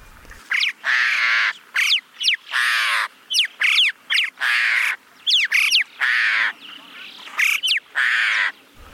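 Birds calling among high rocks: many harsh, caw-like calls in a quick, irregular series of short bursts, loud and clear against a quiet background.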